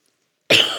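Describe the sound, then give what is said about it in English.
A single sharp cough into a microphone during a church sermon bursts out loudly after near-silence, then tails off with a breathy decay. “Sorry. There's no way to cough and get away from this microphone.”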